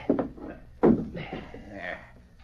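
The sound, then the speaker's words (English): A chair kicked over during a staged fight in a room: two sharp wooden thuds, the second heavier, with voices around them. “Kick that chair over while I scuff up the rug.”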